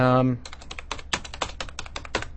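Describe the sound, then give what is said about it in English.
Typing on a computer keyboard: many quick, uneven keystroke clicks in a steady run, fairly loud and with no talk over them. “Can you tell what I typed?”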